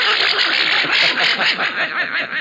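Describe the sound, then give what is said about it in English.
Cartoon duck voice quacking out a nursery rhyme, a raspy, buzzing, garbled squawk running as a continuous stream of syllables in an uneven, bouncing rhythm. “this big, bad, hard-boiled duck recited, Mary Had a Little Lamb.”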